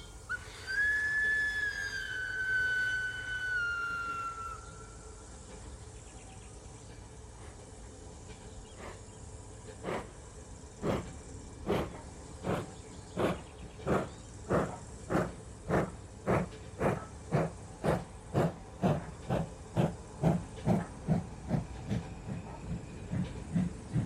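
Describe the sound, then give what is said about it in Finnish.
A little locomotive blows its whistle in one long high toot lasting several seconds. After a pause come many steady, rhythmic chuffs that grow louder and quicken slightly as the train gets under way. “Pikkuveturi kilauttaa kelloa ja hihkaisee pillillä.”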